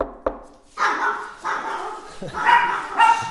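Dogs barking in a few loud, sharp bursts, one after another, with a short pause between most of them.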